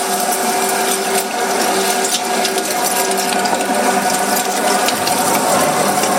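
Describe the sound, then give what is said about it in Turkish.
Steady mechanical whirring and grinding from a butcher's meat grinder mincing sacrificial ram meat, running loud and unbroken from start to end. “Kurbanımızı kestik, bugün de kıyma çektiriyoruz. Kıyma makinesi kasaplarda bir saniye durmuyor.”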